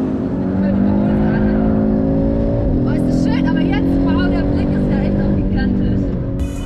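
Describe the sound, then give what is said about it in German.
Audi five-cylinder car engine drifting while overtaking: a loud, sustained engine drone with a rich stack of harmonics runs throughout, its pitch briefly dipping and shifting twice. “Ruth, vor allem, wenn der Fünfzylinder einmal in den Drift-Modus kommt. Laut Audi sind hier bis zu 1750 Newtonmeter pro Rad möglich.”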